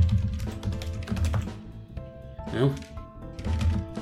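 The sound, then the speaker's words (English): Typing on a computer keyboard during a role-playing game session, a run of quick clicking keystrokes in uneven bursts, with a voice heard alongside. “Hopefully I typed this right this time.”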